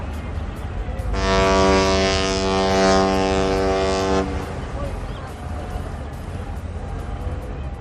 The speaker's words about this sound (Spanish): nos vamos a montar en un barco. Un barco de Lugo que sale a faenar cada día.